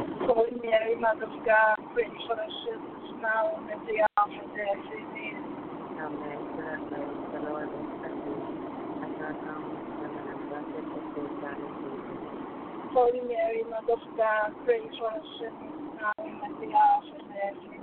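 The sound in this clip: Steady road and engine noise from a car being driven, heard through a phone line, runs without a break the whole time. People talk over it at the start and again near the end.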